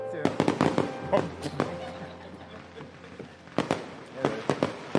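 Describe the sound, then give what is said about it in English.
Fireworks go off in many sharp, crackling bangs, coming in irregular clusters with a quieter lull in the middle. Voices can be heard underneath the bursts. “I'm just enjoying the fireworks.”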